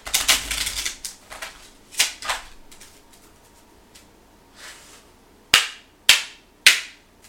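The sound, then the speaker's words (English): Cards from a Kipper deck are shuffled and drawn during a tarot reading. A quick papery riffle and scattered soft slaps are followed by three sharp, snapping clicks near the end, with no talk. “let me go ahead and get four cards from the Kipper deck right quick. See where we're at. I'm going to get these cards.”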